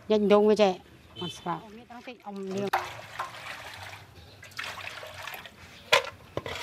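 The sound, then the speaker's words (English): Water splashes and trickles as spiders are washed for cooking, a soft, uneven wash of sound that follows a person speaking at the start. “The spiders are being washed and seasoned.”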